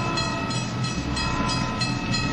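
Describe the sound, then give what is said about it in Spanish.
An old-fashioned train runs on rails on a trip out of Temesvar, giving a loud, steady rumble with a sustained metallic hum and regular rhythmic clacks repeating throughout. “Un tren anticuado me llevó de Temesvar hasta una distancia todavía respetable de mi punto de destino.”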